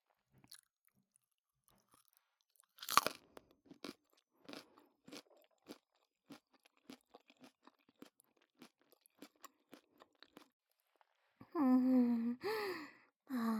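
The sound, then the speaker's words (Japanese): Crunching bites into a sweet raw carrot: one loud, sharp bite followed by many small, brittle chewing crunches in an uneven rhythm. A voice makes a short sound at the end. “この人参甘い。おいしい。”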